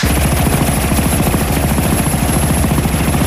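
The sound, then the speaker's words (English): A police helicopter hovers, its rotor beating out a loud, rapid, steady chopping pulse over a dense engine roar that holds unchanged throughout. “The police chopper casts a shadow as it hovers over Turgeon Autos.”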